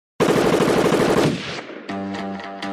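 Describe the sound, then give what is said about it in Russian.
A loud, long machine-gun burst fired at pirate exoskeletons in an armored-suit battle: a dense, rapid rattle of shots for about a second that tails off, followed by a steadier tonal sound. “И только тогда я открыл огонь по замыкающим.”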